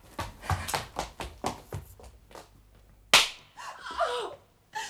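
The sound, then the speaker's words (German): A single slap in the face lands as a crisp, loud smack that stands out sharply after a run of soft, irregular thuds, with fainter noise trailing after it. “Von hier aus sah es aus wie eine Ohrfeige.”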